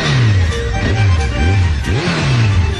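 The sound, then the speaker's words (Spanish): A motorcycle engine revving in several quick bursts, its pitch swooping up and dropping back after each one, loud and alone. “La moto del Toto.”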